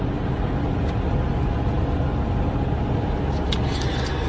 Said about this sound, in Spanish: Se hace la noche y nos dirigimos en el coche de Jesús García